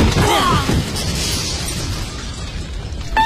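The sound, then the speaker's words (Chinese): A balcony collapses and falls: a loud, heavy crash with a rumbling burst of debris that settles into a sustained noisy roar. “哎，哎呦，这怎么阳台掉了？”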